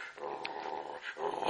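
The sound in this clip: A large, fierce dog indoors growls in a deep, rough, continuous rumble that runs almost the whole moment, dipping briefly early on and swelling louder at the end.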